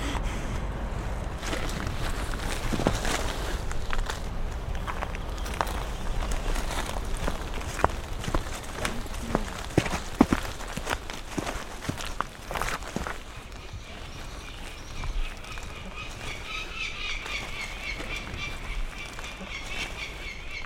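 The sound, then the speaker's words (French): Footsteps crunch over masses of prehistoric wood snail shells on a cave floor in the Ossau valley. Many brittle cracks and crackles come in an uneven walking rhythm over a steady background hiss. “j'ai dans la main un escargot préhistorique, un escargot des bois euh, qui a vécu euh, en vallée d'Osso il y a 8 ou 10 000 ans. Et on marche dessus tellement il y en a.”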